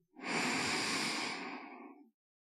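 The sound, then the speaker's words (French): A single slow, deep breath in at the close of a guided relaxation and meditation session. It is a soft, airy inhale lasting about two seconds, faint and alone, swelling quickly and then tapering off. “Prenez une dernière profonde inspiration”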